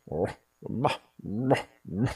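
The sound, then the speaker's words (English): A human voice imitates a dog's barking, mimicking a sleeping partner who barked at night. Four short, harsh, voiced bark-like bursts come in a steady rhythm. “I was woken up to the sound of barking next to me.”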